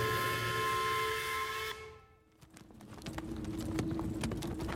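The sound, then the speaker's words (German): Horses' hooves clip-clop as they pull a carriage over bumpy roads, a dense run of sharp irregular knocks. Before them, a steady high whistling tone cuts off abruptly. “Ob wir den Pferden eine Pause gönnen”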